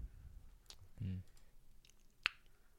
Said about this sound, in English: I have like a new shoulder click. It's fucking sick now.